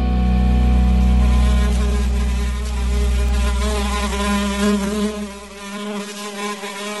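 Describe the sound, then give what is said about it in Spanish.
Buzzing of a fly, a loud, steady droning whine with a slightly wavering pitch that holds continuously and thins out near the end. “Me parece que he visto una mosca fugaz.”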